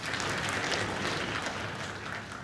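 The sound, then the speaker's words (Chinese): Thin audience applause greets two performers at a crosstalk comedy show in Beijing: quiet, steady clapping that holds an even level, then eases slightly toward the end. “感谢朋友们稀稀拉拉的掌声”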